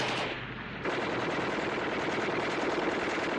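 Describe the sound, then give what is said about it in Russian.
Dense, continuous rattle of a Maxim machine gun firing in a war film scene. After a slightly quieter opening it settles into a loud, unbroken stream of rapid shots. “Плотный огонь пулемета «Максим». Немецкие солдаты отступают.”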